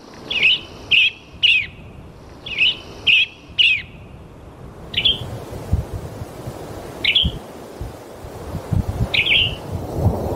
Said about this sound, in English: That's the sound of the male western tanager, a songbird that migrates thousands of miles once the seasons begin to change